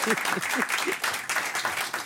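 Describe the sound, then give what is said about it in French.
Audience applause during a standing ovation, dense continuous clapping with a steady crackle of many hands, fairly loud and sustained throughout without pause. “N'attendons pas pour faire une standing ovation”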